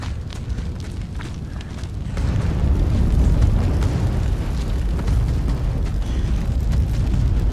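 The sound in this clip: Roaring, rumbling blaze as an airplane catches fire: a dense, low, steady roar that jumps louder about two seconds in and keeps churning at that level to the end, with no voices.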